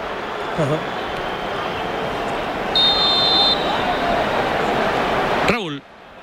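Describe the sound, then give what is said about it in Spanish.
A referee's whistle blows for a foul during a football match involving Spain: one steady, high, shrill blast under a second long, sounding over a constant loud crowd roar. “decía Llorente, pero que pita falta, pero si una falta muy clara”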